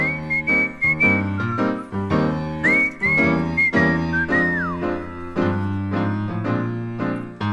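A whistled tune carries a bright, clear melody over a steady instrumental accompaniment of repeated chords, with short held notes and one gliding drop in pitch partway through.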